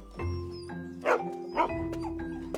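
Dogs barking at night in the upstairs ward of a vet clinic, a few sharp barks and yips at uneven intervals over a steady tonal background.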